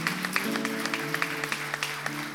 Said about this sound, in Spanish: le damos toda la gloria al Señor con ese fuerte aplauso, porque es para Él, es para Él.